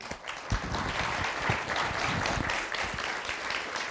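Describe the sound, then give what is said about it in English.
Audience applause greets a speaker at a lecture on red tides and shellfish, a thick, continuous patter of many hands clapping at an even level throughout. “Please join me in welcoming Dr. Mary Silver.”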